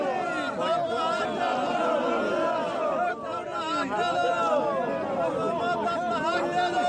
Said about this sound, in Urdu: شمالی وزیرستان میں فوجی آپریشن ضرب عزم کے نتیجے میں افغانستان جانے والے قبائلیوں نے اپنے گھروں کو واپس جانے کے لیے بنوں میں مظاہرہ کیا۔ مظاہرین نے مطالبات کے حق میں نعرے لگوائے۔